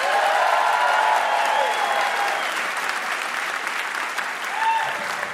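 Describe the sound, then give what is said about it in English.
Studio audience applauding the welcome of a guest comedian at a live show taping: dense, steady clapping that holds at an even, loud level for about five seconds without a break, ending still in full swing. “Thank you, audience, for applauding my welcome.”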